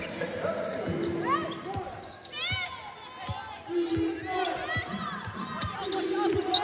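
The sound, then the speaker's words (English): A basketball is dribbled on the court during a women's game, with repeated sharp bounces mixed with squeaking sneakers and a steady crowd murmur. “Picks up her dribble, gives it to Taylor Smith at the top.”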